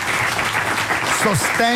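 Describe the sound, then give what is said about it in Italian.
Live audience applause for a company's long-time staff and backstage technicians: dense, continuous clapping that stays loud throughout, with a voice speaking over it toward the end. “Però, facciamo un applauso, ragazzi, a lui e a tutti quelli che da anni”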